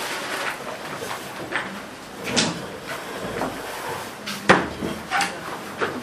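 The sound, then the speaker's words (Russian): A door being closed: a few brief knocks and clunks over faint background noise, with one sharp bang standing out near the end. “Закрывайте дверь.”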